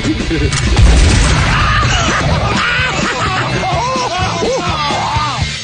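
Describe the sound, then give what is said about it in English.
A shotgun blast fired into a man's face during a stunt: a low boom near the start, almost buried under loud yelling and screaming voices that carry on throughout. “my name's Johnny Knoxville, and I'm going to take a shotgun blast to the face. Okay, ready?”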